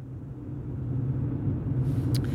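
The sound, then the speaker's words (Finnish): A car speeding far over the limit gives off a steady, low engine and road rumble that holds at a constant, moderate level throughout. “Sä ajat hirveetä ylinopeutta.”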